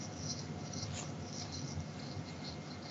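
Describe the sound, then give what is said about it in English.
Soft papery rustling as tarot cards are picked from a deck, a faint continuous scraping and brushing with a few slightly sharper flicks, no talk. “Picking some cards. I'm going to pick like a few.”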